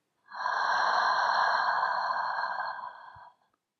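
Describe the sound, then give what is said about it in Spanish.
A single long, deep breath, soft and steady, lasting about three seconds and heard alone in a calm guided exercise. “Toma una respiración profunda, inhalando por la nariz y exhala por la boca.”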